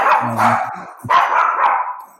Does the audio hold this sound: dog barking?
yes